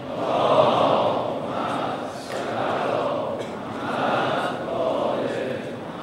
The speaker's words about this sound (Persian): با ذکر یک صلوات به استقبال سخنرانشون خواهیم.